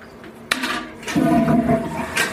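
A toilet flushes: a sharp click, then a loud rushing whoosh of water that swells and drains away over about a second and a half, heard alone.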